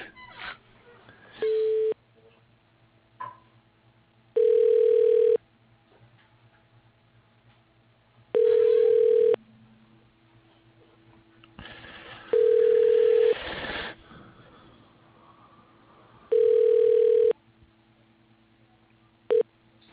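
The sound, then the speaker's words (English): A telephone ringback tone repeats while a call is transferred to voicemail. Steady, even-pitched bursts recur about every four seconds over a faint, low background hum. “I can transfer you also to her voicemail”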